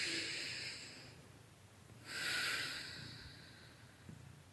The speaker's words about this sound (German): Atme noch einmal tief und vollständig in dich hinein.